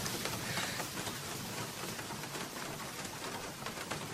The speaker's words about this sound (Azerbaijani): Gör necə də yağış başladı birdən-birə.